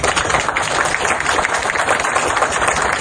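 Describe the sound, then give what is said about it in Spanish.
Audience applause at an institutional presentation, a loud, dense and continuous burst of clapping that holds an even level from start to finish. “Por eso quiero pedirle a los compañeros, a darle un gran aplauso a Rubén Franco,”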